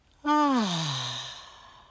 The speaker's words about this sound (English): Deep breath in. And out.